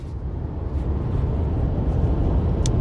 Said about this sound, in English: it's literally 5:45 in the morning. I'm driving to Duluth.